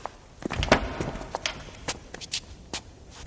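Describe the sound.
Footsteps of a person walking ahead sound as a series of soft, irregular treads and light shuffles at moderate volume, with no talking.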